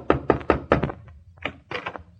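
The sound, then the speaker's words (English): Knuckles knock on the door of the Middletown Little Theater League: a quick run of four firm, hollow raps, a short pause, then a few more. “is about to knock on the door of the Middletown Little Theater League”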